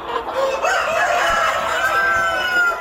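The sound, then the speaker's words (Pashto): Chickens and roosters on a large farm in Ghazni province, Afghanistan, that keeps thousands of local-breed fowl. Drawn-out rooster crowing sounds over continuous clucking from the flock throughout. “د غزنی ولایت خوګیانو ولسوالۍ په بندیاین کلی کې دلته د وطني چرګانو یو لوی فارم دی چې زرګونه چرګي چرګان پکې ساتل کیږي، پالل کیږي او روزل کیږي.”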